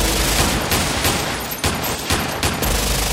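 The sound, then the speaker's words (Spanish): Rifle gunfire aimed at a window, heard as a loud, dense burst of crackling shots with several sharper reports standing out, continuous throughout. “Se acercaron a la ventana de él, sacaron rifle, copete y cañón y se oyó.”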